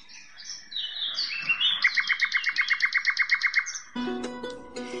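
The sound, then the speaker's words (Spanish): Hummingbird calls: thin, high chirps, then a rapid, evenly spaced run of many sharp repeated notes, followed by a short burst of a different, buzzier tonal sound. “Los colibríes son uno de los grupos de aves más numerosos y diversos del mundo, pero se distribuyen únicamente en el continente americano.”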